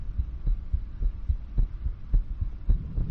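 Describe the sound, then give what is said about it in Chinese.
A fast heartbeat thumps in low, muffled pulses, steady and evenly spaced, with a faint hum beneath and no voices. “这里，这里，人家真的有心跳加速”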